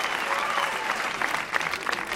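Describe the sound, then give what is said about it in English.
A crowd applauds a prince at a royal ceremony, producing thick, continuous clapping from many people that stays level and sustained from start to finish. “Amber smiles and claps with the rest.”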